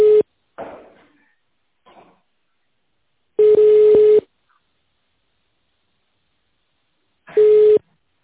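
Telephone tones of a call being connected: a short steady beep at the start and a couple of faint clicks, then two longer, steady mid-pitched tones about four seconds apart, with silence between.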